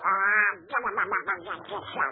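A duck quacks, starting with one drawn-out nasal quack and then a rapid run of shorter, choppy quacks. The quacks are fairly soft, with no talk over them.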